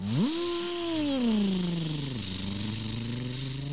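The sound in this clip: Dirt bike engines revving as riders take off during practice. The buzzing motor climbs sharply in pitch at the start, then slowly drops and settles into a steady, droning hum.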